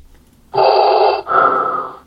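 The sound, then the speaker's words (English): Heavy respirator breathing: a loud, hissing mechanical inhale is followed by a slightly longer exhale, each lasting under a second, heard alone with no voices. “Why is Darth Vader breathe after each one of these? That part confuses.”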